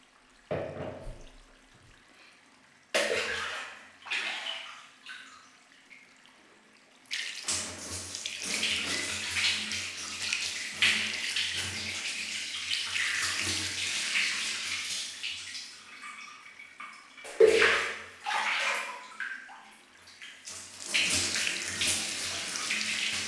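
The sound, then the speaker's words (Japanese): Tap water runs to rinse off after washing at bath time, first in a few short gushing bursts, then as a long steady splashing stream, with brief pauses and a final burst of flow. No voices. “では流していきますね。”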